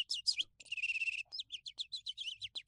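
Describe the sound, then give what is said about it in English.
A person imitates a bird with the voice, making a quick series of high, bright chirps and one longer warbling trill, repeated in a lively rhythm with short gaps. “I was also making bird noises because I can make a cute bird noise.”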